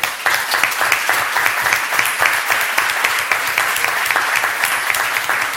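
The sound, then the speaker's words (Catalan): Audience applause at a school ceremony, a dense, continuous clapping with many individual hand claps audible in the wash, staying loud and even throughout. “Ostres, home, això un aplaudiment,”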